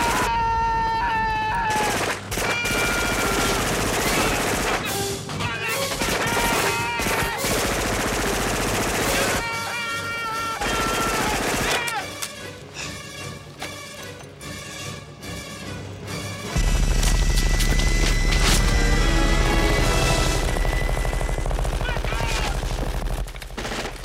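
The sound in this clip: Minigun fire from an 1980s action film, slowed down from its real rate: long, loud bursts of rapid-fire shooting, with short breaks between volleys, across the whole stretch.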